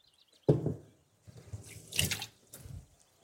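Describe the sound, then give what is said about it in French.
Water poured into a pot kept for the fridge to make orange-peel flavored water, in splashy bursts: a sharp first gush, a short pause, then a few more gurgling pours. “Vous le remplissez d'eau, vous ajoutez vos pelures et vous allez avoir une super bonne eau aromatisée à l'orange.”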